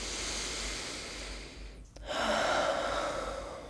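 Slow breathing in and out during a guided morning stretching routine, one long breath that dips briefly near the middle and resumes, steady and moderately loud, with no talk.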